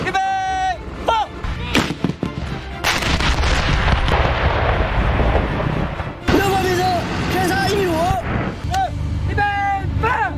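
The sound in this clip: Artillery guns fire during a live-fire drill. A few heavy, booming blasts break into long stretches of rumbling noise, with people talking and calling out between the shots.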